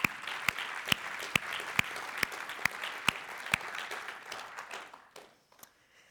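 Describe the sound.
An audience applauds to welcome a speaker to the front: sustained crowd clapping with several sharp, loud claps cutting through at regular intervals, thinning out and fading near the end.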